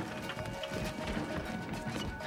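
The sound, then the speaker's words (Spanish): People running away, their quick footsteps making a rapid, even patter that stays faint and continuous under a rough, noisy background. “¡Corre, corre! Salen corriendo.”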